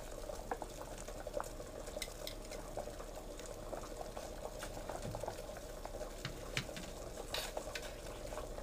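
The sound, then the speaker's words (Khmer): Soy sauce being added to a cooking pan gives a continuous faint bubbling sizzle with many small pops and crackles throughout. “ដាក់ទឹកស៊ីអ៊ីវបន្តិចទៀតហើយទឹកស៊ីអ៊ីវដើម្បីបង្កើនរសជាតិ”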